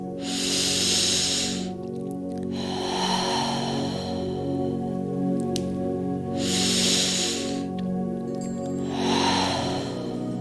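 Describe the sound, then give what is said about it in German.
Slow, deep breaths taken during a guided meditation: two full cycles of an airy hissing inhale and a softer, lower exhale, over a steady, quiet musical drone. “Nimm noch 3 ganz tiefe Atemzüge.”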